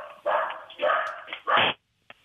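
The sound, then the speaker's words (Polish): A dog barks over a telephone line, giving a few muffled, band-limited barks in uneven bursts before a short pause and one faint final yelp. “Bardzo fajny piesek, mam nadzieję, że nie gryzie, a jesteśmy na antenie.”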